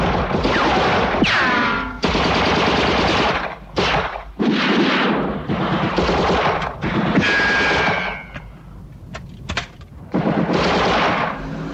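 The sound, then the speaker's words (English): Heavy machine gun fire sprays an arriving Land Rover and pins down swarming guards: loud, rapid bursts of rattling shots separated by short pauses, with booming impacts in between. “When another Land Rover arrives, Mike sprays it with his machine gun. Guards swarm toward the fugitives, but Lewis pins them down with heavy fire.”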